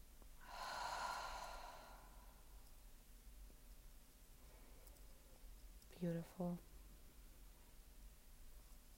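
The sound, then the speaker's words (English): A soft, airy breath out through the mouth during a guided breathing exercise lasts about a second, then gives way to a quiet hiss and a brief faint vocal sound. “And if you can't hold it anymore, let it all go. Mouth open or closed. Exhale out.”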